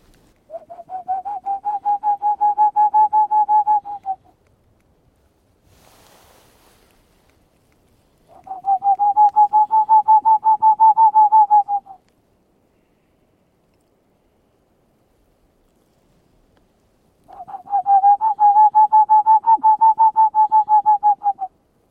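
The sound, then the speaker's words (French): A person whistles an imitation of a Tengmalm's owl call in a small valley at night in Ariège. Three long, rapid trains of steady-pitched hoots are separated by silent pauses. “Et on va essayer d'écouter si jamais on entend de la Tegmalm, en imitant le chant de la chouette de Tegmalm.”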